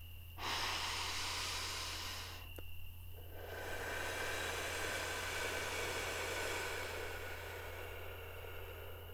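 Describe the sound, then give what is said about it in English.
A slow, deep breath in, then a long breath out after a short pause. Both are soft, breathy and noisy, over a steady low hum. “So let's take a deep breath in and a big breath out.”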